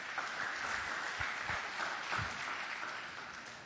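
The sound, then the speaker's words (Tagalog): A church audience applauds in a dense, steady wash of clapping that holds at an even loudness for the whole stretch, with no voices over it. “Sige, palakpakan natin ang Lord.”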